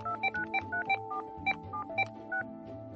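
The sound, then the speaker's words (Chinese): Touch-tone keypad beeps as a telephone number is dialed: a quick run of many short, even beeps at varying pitches over a quieter low background. “我给他们打电话。”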